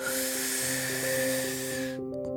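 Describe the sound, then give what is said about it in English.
A deep breath in, taken as a calming heart-to-heart breathing exercise, makes a steady airy hiss for about two seconds over soft sustained music, then cuts off. “While I'm relaxing, I hold both hands over my heart, and then I take a deep breath in”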